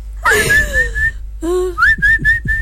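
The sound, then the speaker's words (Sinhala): A person whistles to call pigeons, loud and shrill. A long tone bends downward, then after a pause a rising whistle follows. Four short, sharp chirps repeat in quick succession at the end. “පරවියොන්ට whistle ගහලා ඔබ ගෙන්නන්න පුළුවන්.”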